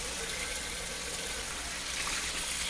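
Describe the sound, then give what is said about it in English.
Running water from a tap while a cereal bowl and a plate are washed out at a sink, a steady, continuous rushing hiss with no voices. “Wash out my cereal bowl. Put it over here on the counter. Wash out the plate.”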